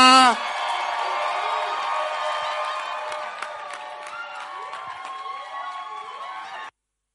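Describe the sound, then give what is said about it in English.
An audience cheers and whoops as a singer is welcomed on stage. A short loud burst opens into steady crowd noise with raised voices, which cuts off abruptly near the end. “Would you like some more singing? Then clap your hands as we welcome Sela.”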